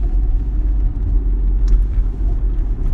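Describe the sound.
Low, steady rumble of a car driving in Houston, a continuous engine and road drone without talk.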